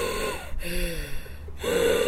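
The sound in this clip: A voice imitating the slow, labored breathing of a character in a coma for dubbing: a few raspy, gasping breaths separated by brief pauses, steady and fairly loud.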